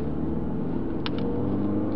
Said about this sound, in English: You can hear the road noise on the device.